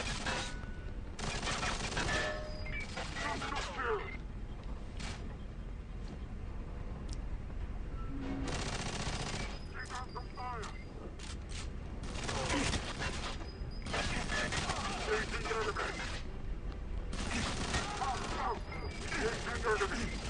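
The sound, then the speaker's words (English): Video game gunfire crackles in many rapid bursts and volleys, with clusters of sharp shots broken by short lulls, fairly steady in loudness across the stretch. “They're still shooting you.”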